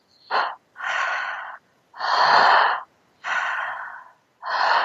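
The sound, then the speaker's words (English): Five breaths from a breathwork practice, with deep inhales drawn into the back of the throat and relaxed, unforced exhales like fogging a mirror. Each is a loud, breathy, rasping sound, separated by short silences, with no voices. “It's like deep into the back of the throat, and exhale is sort of just relaxed by itself. It's not a yoga breath. It's not a controlled breath. So it's like fogging a mirror would be the exhale.”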